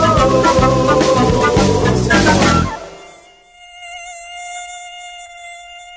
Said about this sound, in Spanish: Este es el mosquito Aedes aegypti, el principal transmisor del dengue.